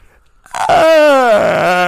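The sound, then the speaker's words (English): A voice imitates an old man's yawn: a loud, drawn-out groaning tone that slides gradually lower in pitch, then settles into a rough, sustained ending after a brief quiet start. “every that's bro, old man yawn.”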